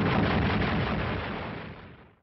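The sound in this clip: Artillery fires at enemy positions in a single heavy, roaring blast that rumbles on and slowly fades away over about two seconds.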